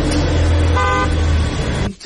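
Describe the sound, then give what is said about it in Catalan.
Car horns toot loudly over the rumble of a car engine and street traffic, a sustained honk in the middle before the noise cuts off abruptly near the end. “Traffic is wild.”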